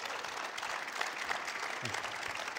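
Audience applause in church: steady, dense clapping from a crowd that keeps an even level throughout.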